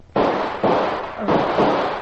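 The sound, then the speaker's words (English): Gunshots fired in a radio drama: four loud, sharp blasts, each followed by a lingering burst of noise, with no talk over them. “You shot me. Yes, and I'm not through shooting.”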